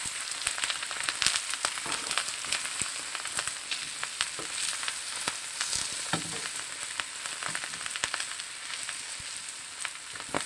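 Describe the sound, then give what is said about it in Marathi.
Okra stir-frying in a nonstick pan over a low-to-medium flame gives a steady, bright sizzle. Dense crackles and pops run through it with no pause for the whole clip. “भेंडी व्यवस्थित परतून घेऊया। भेंडी परतून झालेली आहेत।”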